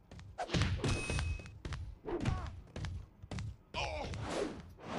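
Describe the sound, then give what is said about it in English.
Heavy slams and thuds from a powerbomb in the wrestling video game Wrestling Empire arrive in several separate bursts, with groan-like vocal sounds between the impacts. “Power bomb. How? How does that even happen? Yo, that's not a thing.”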